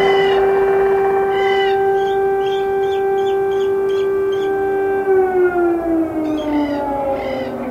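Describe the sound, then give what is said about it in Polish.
An air raid siren wails at 5 a.m. at a railway station in Ternopil, western Ukraine, holding a loud, steady tone and then sliding down in pitch near the end, with a few faint chirping sounds above it. “Wyje alarm przeciwlotniczy.”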